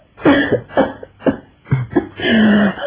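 A person coughs from the smoke of burning wet firewood. Several harsh, throaty coughs come in an uneven rhythm, ending in a longer drawn-out cough.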